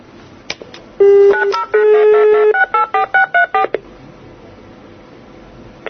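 Telephone keypad dialing tones ring out while a call is placed again: two longer tones followed by a quick run of short, evenly spaced beeps, loud and clear with no voices.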